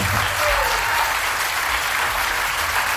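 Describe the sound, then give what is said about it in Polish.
Audience applause: dense, loud clapping that holds steady all the way through with no break. “Dla pana Krzyśka brawa!”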